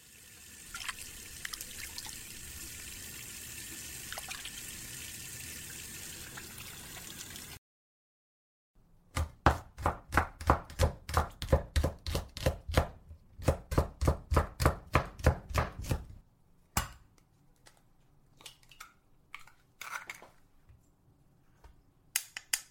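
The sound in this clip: A knife chops food on a board during cooking, striking in a quick, even run of many sharp chops, then a few scattered ones. A steady hiss and a brief silence come before the chopping.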